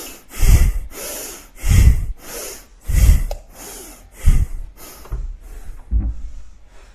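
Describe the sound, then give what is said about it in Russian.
Forceful bhastrika bellows breathing, with loud rhythmic inhales and exhales pumped through the nose in a steady series. The bursts grow slightly weaker and quicker toward the end. “И Бхастрику поехали. Вдох, выдох.”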